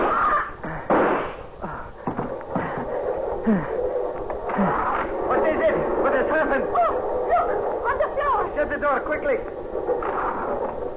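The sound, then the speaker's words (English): Gunshots ring out in a radio drama during a struggle in a dim train compartment: a few sharp, cracking shots and thuds cut through a busy mix of noise and voices. “Hey, who's shooting up the place?”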